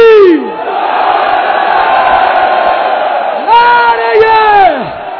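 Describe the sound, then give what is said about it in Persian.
A crowd at an Ashura-night mourning gathering roars a Zaynabi battle cry: a loud, sustained bellow of many voices, with a strong drawn-out vocal cry at the start and another near the end. “کمک زینب، دستتو بیار بالا، کمک زینب، هرچی میتونی. نعره زینبی،”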